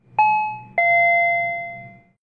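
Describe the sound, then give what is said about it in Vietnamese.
Doorbell ringing out a clear two-note chime, a bright first tone followed by a lower second tone that rings on and slowly fades, loud and alone. “Tiếng chuông cửa vào lúc này vang lên.”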